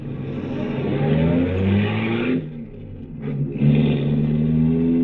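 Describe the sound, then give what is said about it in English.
A recently acquired car being driven, its engine giving a loud, steady, humming drone with layered tones that briefly drops in strength about halfway through, then returns. “Impressive machine, this. I love it, but I'm really not used to it yet. I just got it last week. You drive it very well.”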